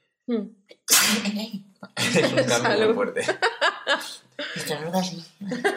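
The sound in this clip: A single sharp sneeze bursts out, followed by chuckling and people talking.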